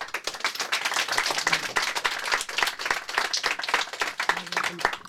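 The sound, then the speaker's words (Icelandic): Audience applause at a poetry reading: dense, even clapping from a crowd that holds steady and loud for the whole stretch, with no letup. “við skulum gefa Steinun Sigurðardóttir gott klapp”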